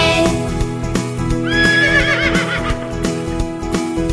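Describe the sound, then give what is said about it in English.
A horse whinnies on a farm, one loud, wavering neigh that rises sharply and then trails off in shaky, quavering pitch. It sounds over a steady, rhythmic background with no talking. “Neigh, neigh, neigh. Neigh, a horse lives on a farm.”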